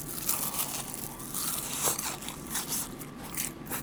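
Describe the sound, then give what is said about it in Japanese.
Crisp bites and chewing on kakiage tempura with whitebait, dipped in broth yet still crunchy. Many close crackling crunches repeat steadily throughout, with no talk. “このかき揚げ自体がすごい美味しい。おつゆもね、合いますね。こういったものにおつゆにつけてもなおかつサクサクですね。”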